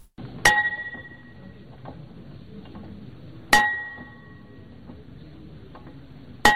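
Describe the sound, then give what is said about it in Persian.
A school bell is struck at a high school ceremony opening the new school year: three sharp metallic strikes, spaced about three seconds apart, each ringing briefly with a bright, clear tone over faint background noise. “وزارت معارف حکومت طالبان با نواختن زنگ مکتب در روز اول ماه عمل طی مراسم خاص آغاز تعلیمی سال 1403 را اعلام کرد.”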